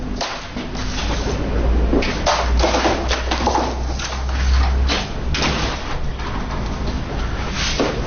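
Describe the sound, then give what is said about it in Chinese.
A door being closed, heard as a few sharp knocks and thuds over a steady, loud background noise with a low hum that runs through the whole clip. “把门关上。”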